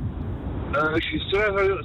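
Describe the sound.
Road noise of motorway traffic from inside a moving car, carried over a phone call. A steady low rumble runs throughout, and a man talks over it in the second half.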